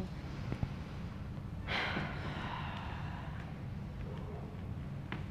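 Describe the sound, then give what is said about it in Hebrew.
A slow breath released through the mouth during a guided breathing exercise, a soft airy rush that swells and then fades over about a second against a steady low background hiss. “שאיפה לשחרור מהפה”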